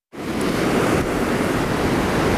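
Strong gusts of wind in Liepāja roar in abruptly and hold as a loud, dense, rushing noise that buffets steadily across the whole clip without a break.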